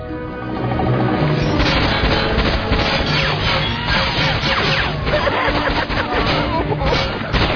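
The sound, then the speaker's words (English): Cover fire from a firefight: after a short lead-in, a dense, continuous burst of crackling gunfire with booming impacts, loud and sustained to the end. “give me some cover fire”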